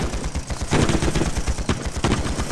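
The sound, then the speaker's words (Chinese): Three rifles opening fire at once to block a stairway: dense, rapid bursts of overlapping gunshots, loud and sustained, with the cracks running together into a continuous rattle. “随着李明耀一声令下，三把步枪同时开火，硬是用火力将通往顶层的楼梯给封锁了。”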